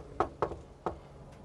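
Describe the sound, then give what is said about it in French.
Knocking on the front door of a house in Manhattan Beach: three quick, fairly faint raps, the first two close together and the third after a short pause, then one much fainter tap. “On va aller à la première maison, juste à côté, frapper à la porte et on verra.”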